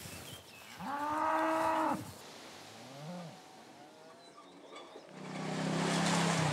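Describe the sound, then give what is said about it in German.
Cattle moo as the herd moves to a new pasture in early summer. A long, loud, low call comes first, then a shorter and fainter moo, then a final drawn-out bellow near the end. “Jetzt im Frühsommer wechseln die Rinder dreimal am Tag die Weidefläche.”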